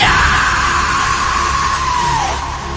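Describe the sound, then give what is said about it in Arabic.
A woman screams loudly in one long, high, sustained cry lasting nearly three seconds, its pitch sliding lower and the sound weakening toward the end. “صرخت صرخة قوية جدا ورجعت ورا خطوتين.”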